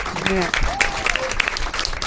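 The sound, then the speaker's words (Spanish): Applause for a departing guest, with many hands clapping in a dense, steady patter while voices talk over it. “La despedimos con un fuerte aplauso, como siempre, a todos los invitados.”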